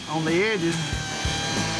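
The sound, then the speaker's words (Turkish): A sanding machine smooths the leftover edge pieces of a workpiece, its motor whining with a pitch that rises and falls before settling into a rougher, steady grind. “Son aşama olarak da kenarda kalan parçaları zımpara makinesiyle dikkatlice düzleştiriyoruz.”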